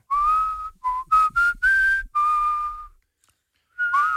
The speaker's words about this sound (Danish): Og nu fløjter jeg bare det, jeg godt kunne tænke mig at høre jer fløjte.